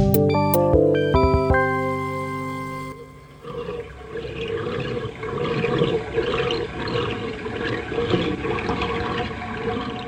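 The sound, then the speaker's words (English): A tap runs with a continuous rushing, hissing flow of water that holds steady for several seconds. It follows a short burst of tonal music at the start, and a brief spoken phrase occurs. “This is the sound of a tap running.”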